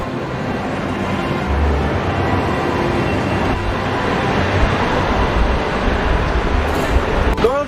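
A passenger train runs steadily, its loud continuous rumble and rail clatter holding at an even level from start to finish.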